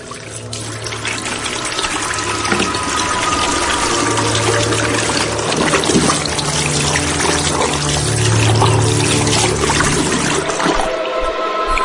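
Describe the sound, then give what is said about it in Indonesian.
Water runs into a sink as hands are washed: a loud, steady, unbroken rush and splash that carries on for the whole stretch and changes abruptly just before the end. “Setelah selesai, aku keluar dan mencuci tangan di wastafel.”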